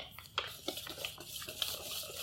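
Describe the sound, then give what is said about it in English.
A whisk stirs flour, salt and sugar together in a bowl for gluten-free crepe batter, giving quiet, steady scraping with a few light taps and clicks against the bowl. “So I'm just whisking together here.”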